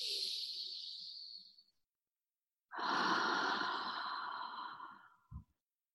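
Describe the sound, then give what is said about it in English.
Deep breaths drawn during a guided spirit meditation: a thin, airy breath, then after a pause a fuller, rougher one, ending with a brief low thump. “Deep breath in.”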